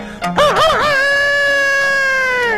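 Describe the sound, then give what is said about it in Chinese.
A rooster, one of two chickens kept by a household, gives a single long crow. It opens with a wavering, warbling phrase, then settles into a loud, sustained, slightly falling tone that holds to the end, with no voices. “有的个别家哎，还养活了两只鸡，这两只鸡也不搅闷，天天打鸣。”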